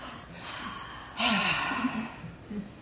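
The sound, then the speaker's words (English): A deep, nervous breath: soft airy breathing, then a sudden louder rush of air drawn in partway through that holds steady to the end. “I have to take a deep breath. I'm nervous.”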